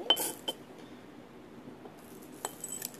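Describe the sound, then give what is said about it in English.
A sprinkle spoon clinks faintly as it is put back. A few light metallic taps are scattered across an otherwise quiet background. “Okay, can we put the spoon back?”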